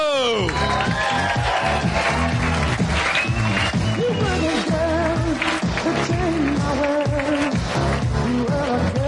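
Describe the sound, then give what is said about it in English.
An audience at a live show in the UK applauds and cheers a stage entrance, with loud, continuous clapping and crowd noise mixed with voices. “Ladies and gentlemen, please put your hands together and welcome to the stage, all the way from Los Angeles, California, United States of America, Jordan, Jesse, Go!”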